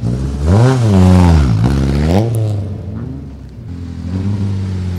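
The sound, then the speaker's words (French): Porsche engine revving at the start of the historic Monte Carlo Rally: two loud revs that swoop up and back down in pitch, then the engine settles into a lower, steadier idle. “Je vais voir du côté du copilote s'il y a moyen d'avoir un peu de son avec cette superbe Porsche qui est là, qui prend le départ.”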